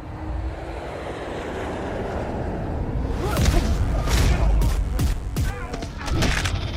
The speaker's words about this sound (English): sit back, relax, and prepare for takeoff.